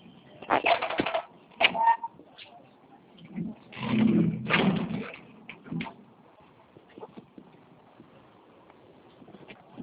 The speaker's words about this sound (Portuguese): Clica nesse acesso que eu estou te encaminhando e vamos digitar o seu CNPJ.